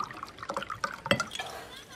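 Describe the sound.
Water poured into a glass while a drink is mixed: a faint trickle with several light splashing drips, set against quiet background sound.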